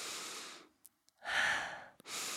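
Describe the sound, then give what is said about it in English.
Nasal breathing in and out by a person who had been congested for a week, heard alone as two airy breaths, a long inhale-like hiss and then another rising rush, separated by quiet with small sniff clicks. “I mean, like, I can breathe through my nose right now. Listen.”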